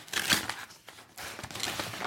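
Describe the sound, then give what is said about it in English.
Crinkling, crumpling rustle of a large, chunky parcel envelope being handled, coming in irregular papery bursts that swell and fade without a break. “a larger parcel, a larger chunkier parcel, a big kind of envelope,”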